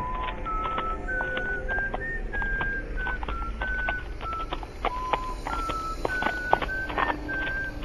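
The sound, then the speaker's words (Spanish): A person whistles a slow tune of held notes that step up and down in pitch, with faint ticking clicks and a low rumble beneath. “Cuando más se iba aproximando Ichabod a tan terrorífico árbol, y para quitarse de encima el miedo, comenzó a silbar inopinadamente.”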